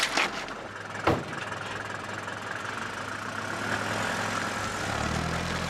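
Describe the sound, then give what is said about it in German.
A taxi's engine runs as the car pulls away, a steady low rumble with a brief sharp knock early on, growing slightly louder toward the end. “Es sind nur zwei ausgestiegen und das Taxi fährt weiter.”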